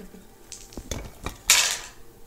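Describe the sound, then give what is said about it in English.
Dice rolled during a tabletop role-playing game: a few sharp clicks followed by a brighter rattling clatter, fairly faint. “How many dice did you roll over there?”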